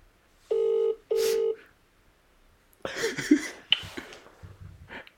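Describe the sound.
Telephone call being dialed: two steady touch-tone beeps, each about half a second long with a short gap between them, followed by quieter, irregular rustling and muffled noises.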